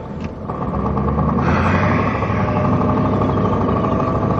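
Car engine running as the vehicle drives off: a loud, steady mid-low rumble that swells over the first second and a half, then holds even.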